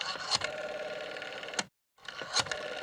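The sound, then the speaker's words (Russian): A rotary telephone dial whirs with rapid clicking as the number zero-seven is dialed, giving two buzzing runs of fine clicks separated by a brief silent pause. “Я хватаюсь за диск телефона и набираю вечное 07.”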